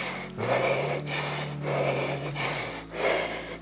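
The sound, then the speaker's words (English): Heavy breathing of a runner racing at lactic threshold: three loud, rasping breath cycles swell and fade in a steady rhythm, each with a breathy hiss, over a low steady hum. “I know I'm at lactic threshold. Well, you can probably hear it in my breath.”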